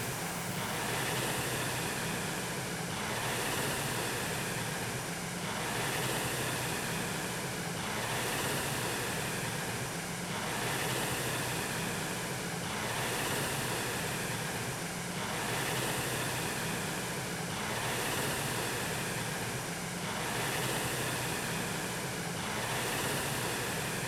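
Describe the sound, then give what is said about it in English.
A Concept2 RowErg rowing machine is in use, its flywheel giving a rushing whoosh that swells and eases with each stroke. Many strokes repeat at an even rhythm, a few seconds apart, with no voices. “Think about pushing the machine away, hanging on the handle.”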